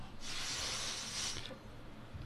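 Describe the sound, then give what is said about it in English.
Steady breathy hiss of a person blowing into a breathalyzer after spraying breath spray into the mouth: one continuous blow lasting just over a second, then a drop to quiet. “So he's trying to beat the breathalyzer, and he... Give us a blow.”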